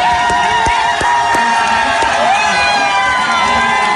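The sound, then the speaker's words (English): Cheering from a crowd in an Irish bar at a vote result, with loud, sustained shouts and whoops from many overlapping voices. “Isn't that just fantastic? And as only Irish people can do, after the cheering, that everybody in this bar all of a sudden was equal,”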